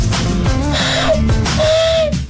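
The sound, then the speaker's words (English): Human voices imitate an exotic barn owl mating call with loud, hooting, warbling vocal glides that slide up and down in pitch several times, forming a rough, comic owl-like duet. “by replication of an exotic barn owl mating call, can you please confirm your presence?”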